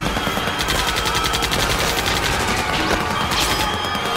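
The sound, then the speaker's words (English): The alien gun from the film Mars Attacks fires in a loud, dense, rapid rattle of buzzing pulses that runs unbroken for several seconds. “Mars Attacks. Yeah, let me hear that first clip. I should have set that up a little better. The sound of that gun.”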